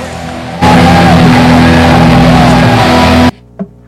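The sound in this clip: A loud rock band song plays from a recording as a dense, harsh, distorted wall of sound for nearly three seconds. It cuts off abruptly, and a brief faint sound follows.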